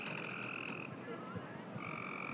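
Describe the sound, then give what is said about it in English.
Tree frogs croaking as a faint background chorus, with steady high buzzing trills that pause briefly and resume over a constant hiss. “I don't know if you can hear the tree frogs, but there are tree frogs in the background.”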